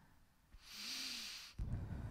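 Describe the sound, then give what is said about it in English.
A single deep breath is drawn in during a guided breathing exercise, making a soft, airy hiss that lasts about a second, faint and on its own. “Let's do this 3 times. Exhale out slowly. One more time, deep breath in.”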